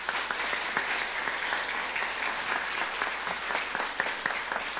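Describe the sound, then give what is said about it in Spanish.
Audience applause fills the whole clip as a dense, continuous wash of clapping from many hands, holding a steady loudness without a break. “Denle un aplauso, ¿eh?”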